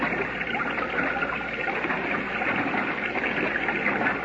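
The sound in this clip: A rushing torrent of water in a flood current, a dense, steady roar that stays loud and unbroken from start to finish.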